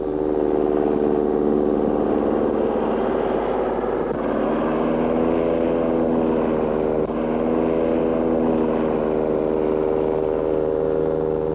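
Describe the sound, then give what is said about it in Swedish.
Propeller engines of Swedish-built dive bombers taking off group after group, a loud, steady droning roar with strong humming tones that shift slightly partway through and hold without a break. “Det här är V-17, helt svenskbyggda störtbombplan som sagt. Lekmannen känner igen dem på deras långbyxor som de fäller upp när de väl kommit till luften. Grupp efter grupp startar och lyfter.”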